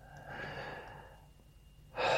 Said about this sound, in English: Thank you very much for that breath.